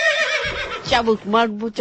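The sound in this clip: A horse neighing, a brief, loud, quavering whinny with shifting harmonic pitch, lasting under two seconds.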